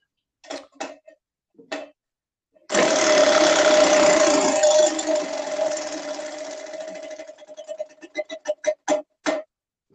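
A prize wheel spinning: a few clicks, then a loud, whirring rush of rapid ticking that thins into separate clicks spaced farther apart as the wheel slows.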